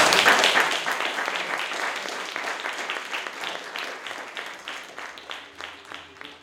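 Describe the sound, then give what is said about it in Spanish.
Collective applause fills the room at a trade-union conference, a dense patter of many hands clapping that starts strong and gradually thins and softens over several seconds. “Aplauso colectivo.”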